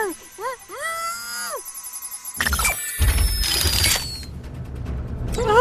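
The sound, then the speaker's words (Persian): Sci-fi scanning device operating: arched, warbling electronic tones give way to dense mechanical whirring and clatter with a thin whistling tone over it. The sound is fairly loud throughout. “این یه دستگاه اسکنه. زود باش حالت استتار به جام.”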